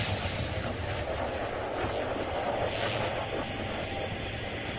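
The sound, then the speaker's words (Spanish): Airplane engines drone steadily as the last two planes are shot down during an alien invasion, a faint, unbroken roar with no distinct impacts. “A los 2 últimos aviones también les llega la destrucción inexorable. Son derribados con espantosa facilidad.”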